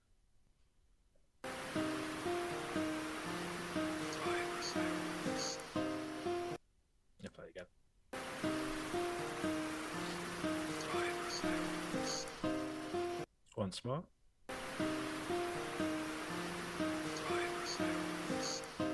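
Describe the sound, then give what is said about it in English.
Water rushes in a tunnel as a steady, faint, hissing roar. It plays as three stretches separated by short gaps in which a voice speaks briefly. “You can hear the water in the background, just rush running in the background.”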